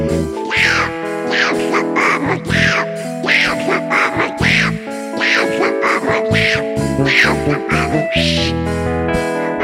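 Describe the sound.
A voice imitating Donald Duck's quacking: a long, continuous run of nasal, buzzing quack-like syllables in rapid, uneven bursts, loud throughout.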